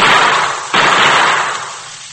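Gunfire in a radio-drama shootout: a couple of loud, sharp blasts, each spreading into a broad hissing tail that fades away, with no talk over them.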